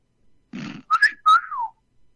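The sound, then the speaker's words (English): A human wolf whistle: a short, sharp, high note, then a longer whistled note that glides downward. A faint breathy sound comes just before it, and the whistle is clear and alone, without talk. “It's more of a wolf whistle.”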